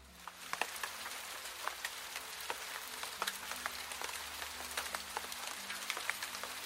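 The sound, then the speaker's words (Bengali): Light drizzle falling at a railway station under grey clouds: many scattered drops tick and patter over a soft, steady hiss, with no voices. “টিপ টিপ করে বৃষ্টি পড়ছে, পুরো আকাশ ছাই ছাই মেঘে ঢাকা।”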